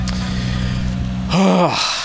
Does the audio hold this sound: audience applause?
no